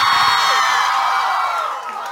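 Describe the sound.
A concert audience in Monterrey cheers and whoops loudly at the start of a tour show. The roar is continuous and eases slightly toward the end.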